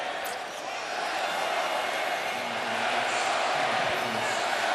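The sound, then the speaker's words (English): Knicks fans chanting in a Cleveland arena, heard as a dense, steady crowd roar that holds at an even loudness throughout. “שוב הקריאות בקליבלנד, let's go Knicks. Several thousand Knicks fans that made the trek from New York to be here”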